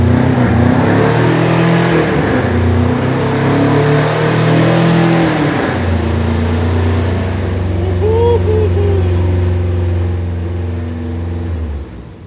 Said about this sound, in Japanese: はい、じゃあこの後にキーを回してください。セルを回してください。 うわー、かっこいい、この音。